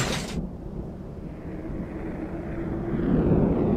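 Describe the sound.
Airplane falling and breaking apart after its propeller is hit, its engine set on fire and a wing torn off: a deep, steady roaring rumble that starts with a brief bright hiss and grows slightly louder toward the end.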